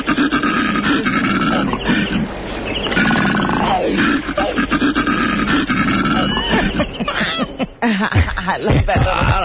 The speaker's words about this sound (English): What was the name of that? Koala bear.